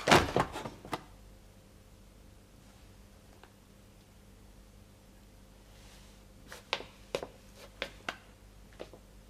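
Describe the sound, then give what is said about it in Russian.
A wardrobe door opens and a body falls out: a loud cluster of knocks and thuds opens the sequence, then comes a long quiet spell, and a few sharp clicks and taps follow. “Андрей открыл шкаф. Оттуда выпал парень.”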